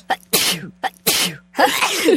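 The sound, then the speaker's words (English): A rapid staccato string of sneezes: three sharp explosive bursts, each preceded by a quick intake of breath, with the final sneeze longer and more drawn out. “But I really like the attack. It's like a Tommy gun sneeze.”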